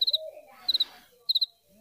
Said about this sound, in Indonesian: suara jangkrik